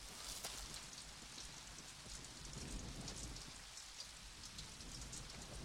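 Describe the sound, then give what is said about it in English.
Rain falls on mud as a faint, steady hiss. Soft, scattered patter of drops runs through it without a break. “Rain washes over the mud.”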